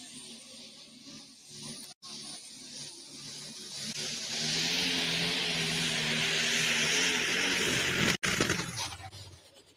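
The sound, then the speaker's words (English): Race car engine brought up to full throttle: a low rumble swells after a few seconds into a loud, harsh, sustained roar lasting about four seconds, then cuts out abruptly and tails off. “Took him a long time to go full throttle. When he did, it didn't last very long.”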